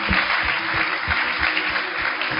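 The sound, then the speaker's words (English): A church audience claps together in steady, dense applause, with loud continuous hand claps and faint rhythmic low thumps beneath, and no pauses. “Clap for Jesus. Clap for Jesus.”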